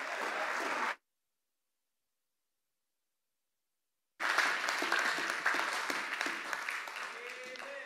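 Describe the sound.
A Pacific Baptist church audience applauds to welcome a visiting preacher: a burst of clapping breaks off into silence, then fuller, louder applause resumes and carries on to the end.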